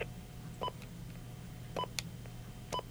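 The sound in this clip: Telephone keypad tones as a voicemail password is entered: a few short, separate beeps spaced out in an irregular rhythm, faint over a steady low hum, with no talk.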